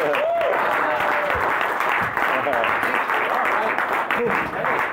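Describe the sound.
A stand-up comedy audience applauds and cheers for a comedian, dense continuous clapping with scattered whoops that stays loud throughout.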